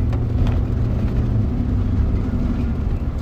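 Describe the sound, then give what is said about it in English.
Car driving through a parking lot beside a street, heard as a steady, loud low engine and road rumble with no voices. “right now, I'm driving through the USS Hornet parking lot because this parking lot is adjacent to a street”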